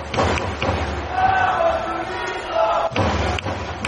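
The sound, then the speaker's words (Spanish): Baseball fans cheer on batter Jesús Favela with a sustained roar of voices, broken by a few sharp thumps or bangs that punch through the crowd noise. “Y el público alentando a Jesús Favela.”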